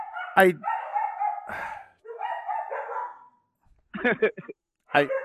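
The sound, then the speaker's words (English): Dogs barking at bears on the porch: a few sharp barks stand out, with longer drawn-out vocal sounds between them and a short quiet pause before the last barks. “They're all barking because there's bears on the porch.”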